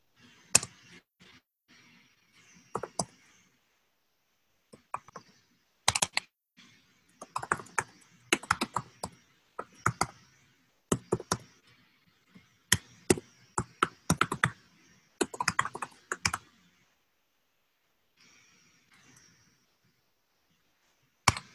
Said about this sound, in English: worst part about having people watch me type is that it makes me nervous and I don't like